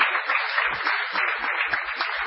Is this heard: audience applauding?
yes